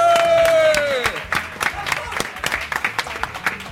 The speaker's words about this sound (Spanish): ¡Un aplauso!